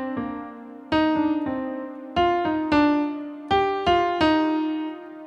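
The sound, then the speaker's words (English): The last three notes of a musical motive are played as a rising sequence: four groups of three struck, decaying tones, each group repeating the same figure one step higher than the one before. “Now, I will take the last three notes and, as a sequence, bring them up one note at a time.”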